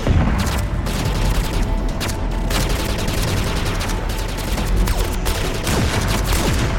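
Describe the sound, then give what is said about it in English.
Battle gunfire with rockets being fired: a dense, continuous crackle of rapid shots at steady loudness, with scattered heavier bursts and booms. “Shit, they're firing rockets!”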